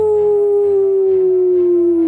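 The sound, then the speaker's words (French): A wolf howling in one long, loud, sustained note that drifts slightly downward in pitch, heard alone throughout. “Le loup a fort hurlé « Aouh !»”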